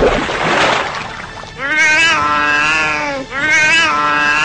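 A wet cat shakes off bath water in a brief hissing, spraying burst, then gives two long, drawn-out meows one after the other.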